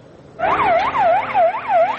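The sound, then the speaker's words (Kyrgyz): An ambulance siren wails as the vehicle rushes to save lives after an attack in Afghanistan, its loud tone sweeping up and down in regular, repeating cycles with no voices over it. “Адам өмүрүн сактоого ашыккан тез жардам унасы”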